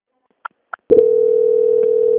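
A telephone call transfer tone: two short, faint beeps, then a steady, loud, continuous mid-pitched tone that holds to the end with no talking.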